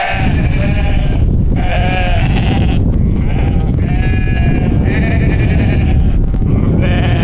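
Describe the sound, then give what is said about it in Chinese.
Sheep on a mountain pasture near 4000 m at the foot of the Kunlun Mountains in early autumn bleat loudly and repeatedly. Many overlapping bleats rise over a steady noisy background. “昆仑山下的板蓝格草场海拔接近4000米，初秋的寒意让羊群早早换上了冬装。”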